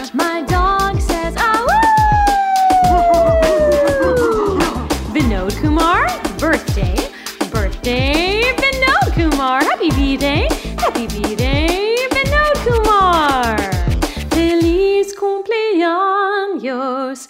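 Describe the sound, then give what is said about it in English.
A dog barks and yips out a birthday greeting in a long run of whining, howl-like vocal sounds that slide up and down in pitch, loud and nearly continuous over a steady beat. “Feliz cumpleaños, Vinod Kumar. My dog says to you, Vinod Kumar.”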